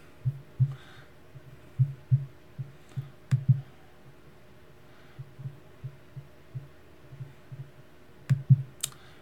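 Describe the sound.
Computer mouse clicking while someone browses websites: many soft, dull clicks in an uneven rhythm, some coming in quick pairs, with no voices over them.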